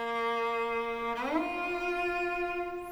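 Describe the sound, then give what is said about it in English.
Delayed shift on a bowed string instrument: one sustained bowed note holds, then slides quickly upward into a higher note, which rings on steadily; the tone is fairly soft and played alone. “There are two fundamental shifts, one is called a delayed shift. It sounds like this.”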